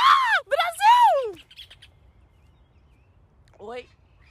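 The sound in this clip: Rufous hornero calling: a quick run of loud, arching, harmonic-rich notes that rise and fall in pitch, then a quiet pause before one shorter, fainter arched call near the end.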